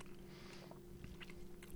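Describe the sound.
Chewing on a beef stick, very faint, with a few soft crunchy bites and moist mastication over a low, steady hum.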